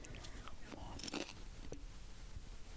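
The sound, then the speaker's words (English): Close-miked chewing: a few soft, crunchy bites and wet mouth clicks at low level, scattered over a faint steady background. “Oh, do keep in mind, though, I'm chewing in the mic.”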